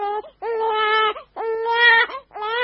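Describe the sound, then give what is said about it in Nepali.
A little girl sick with diarrhoea cries in long, high, wavering wails broken by brief gasping pauses. The crying is loud and heard alone, with no talk. “होइन नानीलाई के भयो, किन रोइरहेको?”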